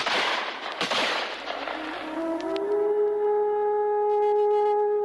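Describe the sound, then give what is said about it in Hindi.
Gunfire is loosed on an old man during the Santhal tribal uprising. A few sharp, loud bangs ring out amid a dense, noisy burst, followed by a rising, sustained whistling tone. “सुनते ही वृद्ध पर गोलियों की बौछार हुई।”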